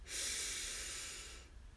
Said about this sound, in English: Breathe in. And out. Breathe in.